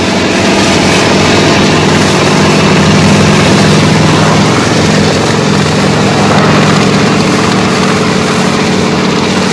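Helicopters carrying a first assault wave of troops lift off together: a loud, dense, unbroken roar of engines and rotors that holds steady at the same level throughout, with no other sounds standing out.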